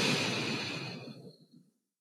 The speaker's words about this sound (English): And then exhaling. Extending the exhale. And one more time, inhaling and exhaling.